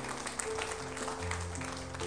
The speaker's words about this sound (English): Give the Lord a hand clap. Amen. Praise God.